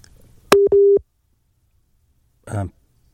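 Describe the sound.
Busy tone after a dropped phone call: a steady mid-pitched electronic tone in two close bursts, followed after a short pause by a brief voice.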